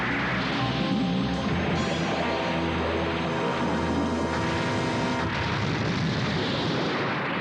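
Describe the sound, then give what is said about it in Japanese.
Red Ribbon Army cannon and gunfire pound continuously, a loud, dense roar of booming blasts over a heavy low rumble that barely lets up, shifting in texture about five seconds in. “レッドリボンって言ったら世界最悪の軍隊だぞ。 発射。 うわ、また撃ってきた。”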